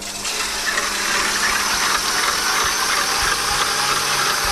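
Steady whirring drone of an electric mixer whipping cream, with sugar being added, runs continuously and loud throughout with a faint rattling mechanical texture and no talk.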